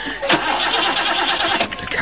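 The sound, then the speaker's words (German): A car engine cranks but fails to start, a steady loud churning whir of the starter that goes on throughout without the engine catching. “Sie sehen es doch, der Motor springt nicht an.”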